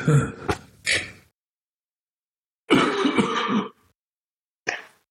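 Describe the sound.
Throat clearing in a few harsh, rasping bursts with silent gaps between them, including a longer rough clear in the middle, with no talk over it.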